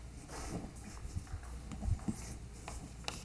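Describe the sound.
Mathematics being written on a board: faint, irregular scratchy strokes and taps with short pauses between marks, and no voices.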